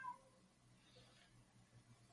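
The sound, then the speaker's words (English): A house cat meows faintly, a short, soft call over a low, steady background hum. “is that your cat or mine? That was mine.”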